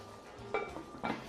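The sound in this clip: Metal lid set onto a cooking pot of food seasoned with salt and oil, cooked over a wood fire. Two short metallic clanks about half a second apart sound over quiet background noise.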